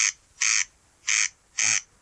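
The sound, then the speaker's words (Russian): Rasping calls of a corncrake, a small reddish meadow bird: harsh, dry bursts repeat at an even pace, about four in two seconds, the first clipped at the start, with quiet gaps between them. “а это чей голос? Так кричит карастель-дергач.”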